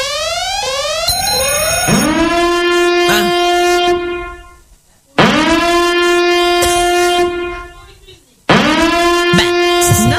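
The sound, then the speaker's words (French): A loud alarm wails in three long cycles, each sweeping upward in pitch into a harsh, buzzy sustained tone before fading away and restarting. “C'est une alarme. C'est pas de musique, c'est une alarme.”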